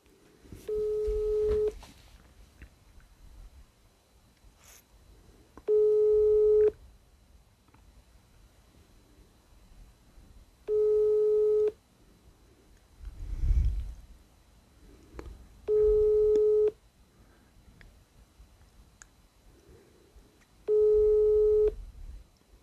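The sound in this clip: Telephone ringback tone on a call that goes unanswered: five steady, identical tone bursts evenly spaced about five seconds apart, with quiet background noise between them.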